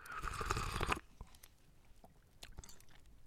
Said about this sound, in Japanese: 味噌の味香ばしい味もしてますやっぱりスープいただかないとねラーメンといえばうんいただきます